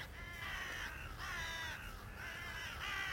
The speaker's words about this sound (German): Ich glaube, die Raben hören uns doch.